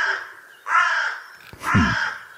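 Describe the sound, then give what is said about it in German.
A crow cawing: two loud, harsh, drawn-out caws, the second following a brief pause after the first, with no other sound around them. “Die Krähe hier im Beitrag, die sagt auf alle Fälle.”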